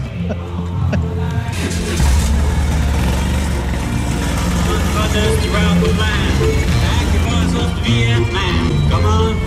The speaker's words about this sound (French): Et donc là, on est parti en moto.